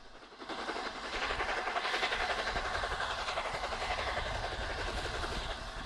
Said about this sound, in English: the locomotive exiting the tunnel in great billowing clouds of white steam and smoke.